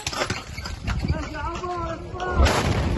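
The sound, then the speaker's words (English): Voices come just before a heavy explosion from an Israeli airstrike hitting a house in a Gaza City suburb. The blast lands near the end as a sudden deep boom. “A blast could be heard the moment an Israeli airstrike hit a house in a Gaza City suburb on Sunday.”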